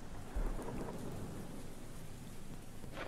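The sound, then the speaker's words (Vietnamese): Thunderstorm with steady rain hissing throughout and a low rumble of thunder breaking in near the start, all at a faint, even level. “chạy trong mưa trong gió, bất chấp ở trên bầu trời sấm sét mưa gió vẫn cứ nổ đùng đoàng, mây đen vẫn cứ vần vũ.”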